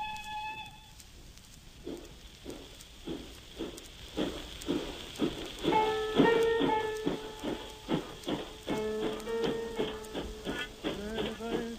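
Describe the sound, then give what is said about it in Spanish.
A steam train departing at night gives a steady series of rhythmic chuffs over a constant hiss of steam, the puffs moderately loud and regular throughout, with no voices. “y otro chorro de vapor en la noche. Sin un gesto, el hombre del portafolios despide al tren con su monólogo.”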